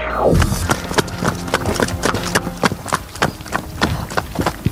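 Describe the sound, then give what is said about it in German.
A pony gallops on a horse farm, its hooves beating a quick, rhythmic run of many sharp clip-clops in a steady, driving pattern, loud and clear from start to finish. “Okay, es klingt nach einer Gangart, bei der ich auf jeden Fall unten landen würde, glaube ich. Klingt nach Galopp. Das klingt ja auch schnell.”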